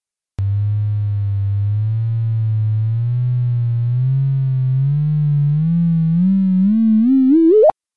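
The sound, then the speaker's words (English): Simulated gravitational-wave chirp from two spinning neutron stars spiralling together: a loud, smooth buzzing tone that wobbles as it slowly climbs in pitch, then sweeps sharply upward and cuts off abruptly. “here's a waveform where the neutron stars, which are inspiring toward each other, each have intrinsic spin, and this affects the orbital evolution. So that makes the waveform sound a bit like this.”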